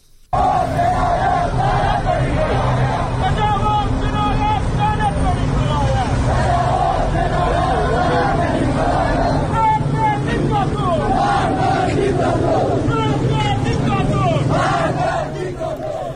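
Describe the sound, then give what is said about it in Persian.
Protesters fill the streets of Iranshahr, Iran, their voices massed into a loud, sustained roar of shouting and chanting that keeps an even, dense level throughout. “اما در ایران شهر هم مردم معترض خیابون ها بودن. میریم صدای ایران شهر رو میشنویم.”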